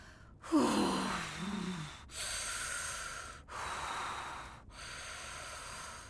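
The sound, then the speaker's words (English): Heavy human breathing, like labor breathing: four long, loud, rasping breaths in a steady rhythm, the first opening with a voiced gasp. “Maybe it's me that needs to take a breath.”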